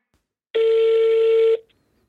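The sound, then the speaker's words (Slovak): A single steady telephone tone sounds for about a second, loud and clean, as a call is placed on a handed-over phone. “Zavolaj Citronovi. OK, podaj mi telefon.”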